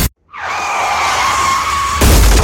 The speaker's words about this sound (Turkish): Trafikte küçük bir kaza, büyük bir masrafa dönüşmesin.